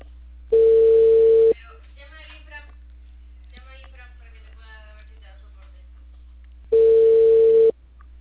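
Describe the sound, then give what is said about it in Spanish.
Ringback tone of an unanswered telephone call: two steady one-second tones about five seconds apart, with people talking quietly in the gap between them. “No contesta el de Huerto Azul.”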